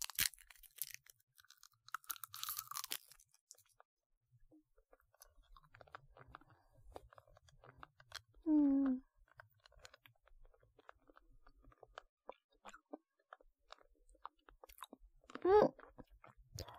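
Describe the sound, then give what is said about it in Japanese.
A lemon hard candy is chewed and crunched in a quiet, close setting, with many faint crisp clicks and cracks scattered throughout, and two brief hummed sounds from the eater. “この飴食べてもいい？じゃあ、いただきます。”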